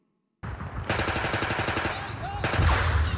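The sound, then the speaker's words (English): Rapid automatic gunfire in a military firefight: loud, dense bursts of shots start abruptly after a short silence and rattle on continuously, growing heavier toward the end, with no talking. “I can still hear bullets firing.”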